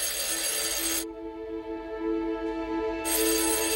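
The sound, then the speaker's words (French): Telephone ringing in early-1990s France, a steady layered electronic tone with bright, noisy ringing bursts at the start and end and a quieter tonal stretch between. “Quelques jours avant cette annonce, elle reçoit un coup de téléphone.”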